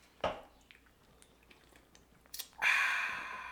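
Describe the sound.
Someone drinking a cold beer: a sharp click near the start, then after a quiet stretch a short burst and a sustained wet, fizzy hiss that fills the final second.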